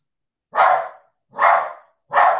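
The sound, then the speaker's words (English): A dog kept at the back of the house barks three times, loud, short and sharp, evenly spaced with silence between each one. “I'm sorry about that dog. We've got a dog at the back that keeps barking.”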